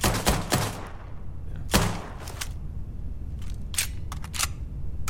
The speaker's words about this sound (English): Here, I've got a gun sample just so we can have a reference point.